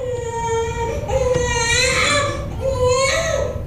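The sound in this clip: A newborn baby boy, healthy and just delivered, cries loudly in a few drawn-out, high-pitched wails that rise and break between breaths, continuing without pause.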